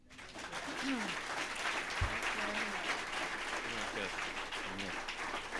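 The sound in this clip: Audience applause welcoming a speaker to the front of a gathering, a steady wash of many hands clapping that holds for several seconds, with voices faintly underneath.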